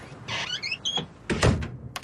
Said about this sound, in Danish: Det er lang tid siden, den dør har været åbnet